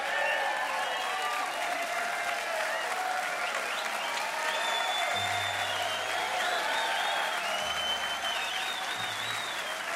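A concert crowd applauds in a dense, steady wash of clapping that carries through the whole ten seconds as a Grammy-winning bluegrass band is welcomed on stage.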